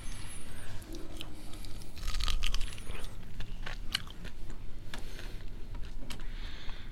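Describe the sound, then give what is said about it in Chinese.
Someone bites and chews fresh pineapple, giving faint wet crunches and small clicky bites over a steady low background. “那我现在吃凤梨。”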